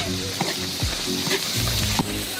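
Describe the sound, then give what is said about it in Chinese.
Handmade aged Sichuan chili bean paste and pickled erjingtiao chili paste sizzle in hot oil for a fish dish, giving a steady bright hiss. A few soft stirring knocks break the frying noise. “酱料炒香”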